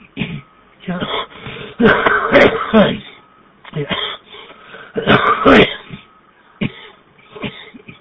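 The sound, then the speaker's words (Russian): A man coughs in repeated harsh fits mixed with throat clearing, in several bursts separated by short pauses, loud and rough throughout. “Прошу прощения, закашлялся.”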